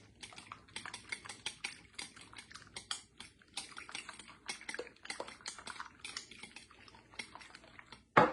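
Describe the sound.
Omelet eggs being mixed with McCormick Texas-style seasoning: many quick, light clicking taps in an uneven rapid rhythm, with a louder burst right at the end.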